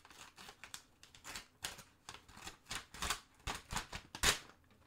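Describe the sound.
Paper crinkling and tearing as a fan mail envelope is opened carefully to avoid ripping it, many short rustling bursts in quick succession, with the sharpest tear near the end.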